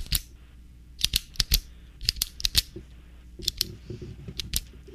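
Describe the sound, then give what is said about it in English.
A pen clicking as an everyday sound in a guessing game: many sharp, crisp clicks that mostly come in quick pairs, separated by short pauses, alone without talk. “Is it a pen? Yes! Yeah! Yes! It's a pen clicking.”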